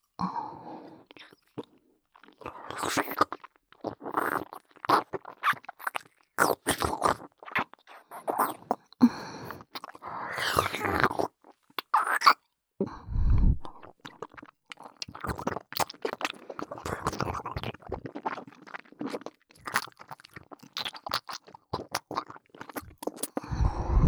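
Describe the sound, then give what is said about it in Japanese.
Chewing and swallowing of food, close and intimate, with many irregular wet, squishy bites mixed with sharper crunchy clicks, coming in bursts separated by short pauses. “せっかくですし、飲み込むところを確認していただけますか？では、いただきます。”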